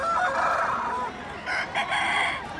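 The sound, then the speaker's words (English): A rooster crows near an abandoned gravel pit, giving one long drawn-out crow followed by a few shorter, clipped calls. “you could hear, invisible from behind the trees, the sound of cheers and rooster calls”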